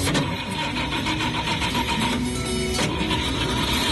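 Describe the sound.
A vehicle's engine running loudly at the start of a trip, a dense, continuous rumble with a buzzing tonal whine that holds steady throughout.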